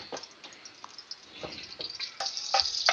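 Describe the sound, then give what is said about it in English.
Peppers sauteing in a skillet for a baked dish: faint, steady sizzling hiss with scattered small crackles and ticks that grow slightly louder toward the end. “So what we're doing in the skillet is just kind of sauteing the peppers, getting those kind of softened.”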